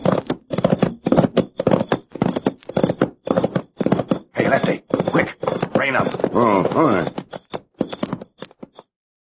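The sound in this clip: Horses ride closer with hooves clip-clopping in a steady, brisk rhythm that runs almost the whole time. Voices talk over the hoofbeats midway, and the hoofbeats stop near the end.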